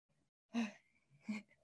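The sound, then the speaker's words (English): Heavy breaths rush into the microphone during an exercise class, two sharp, breathy bursts separated by a short pause, each fading quickly into near silence. “Heavy breathing in the microphone. That means we're working.”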